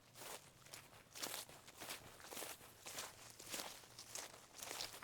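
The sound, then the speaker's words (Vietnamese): Shuffling footsteps pace back and forth at night in a garden by a starfruit bush, a faint, steady run of many soft scuffing steps in an even rhythm with no voices. “tôi mơ mơ hồ hồ nghe thấy có tiếng bước chân đi đi lại lại loẹt xoẹt, loẹt xoẹt.”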